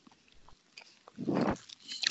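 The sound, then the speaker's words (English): Someone biting and chewing food, with a few soft crunchy clicks and one louder crunching burst in the middle. More faint crackles follow toward the end, and no talk is heard. “So, what are you eating?”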